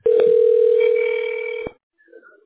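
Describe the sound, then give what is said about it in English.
A telephone tone sounds while a call to a tax specialist is dialed: one loud, steady tone held for about a second and a half before it stops abruptly. “we're dialing the tax specialist”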